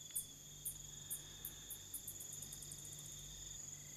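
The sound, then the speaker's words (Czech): Bats make a faint, metallic chirping as they flit low over hyenas. Sharp, high chirps repeat, coming faster and closer together, over a thin, steady, high whine. “Tenhle kovově cvrčivý zvuk jsou netopíři.”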